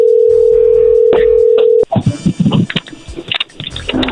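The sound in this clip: A telephone number being dialed on a phone line: a steady dial tone hums for nearly two seconds, broken by a couple of brief clicks, then stops and gives way to irregular crackly line noise.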